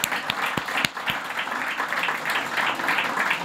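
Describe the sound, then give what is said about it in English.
A theater audience applauds at the end of a storytelling performance. A few separate, sharp claps come first, then they swell into sustained, dense clapping that holds steady to the end. “Thank you so much for coming out to see us. Give yourselves a hand.”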